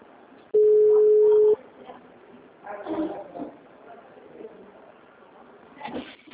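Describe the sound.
A telephone line gives one steady, low-pitched ringing tone lasting about a second, followed by faint, muffled voices and line noise.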